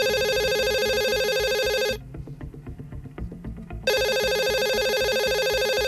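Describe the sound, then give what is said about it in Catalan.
A telephone rings in two long, steady electronic bursts with a bright, buzzy tone, separated by a pause of about two seconds filled with faint low rustling. “Va rebre una trucada d'una tal Isabel, que va dir que era amiga de l'Helena.”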